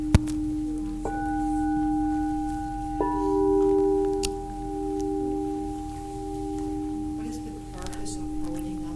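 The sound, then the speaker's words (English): A practitioner singing bowl used for sound healing is struck a few times, and each strike blooms into long, sustained, pure ringing tones with shimmering overtones that slowly waver and fade. “This is a different kind of bowl, so it's a practitioner bowl. It has a variety of different uses.”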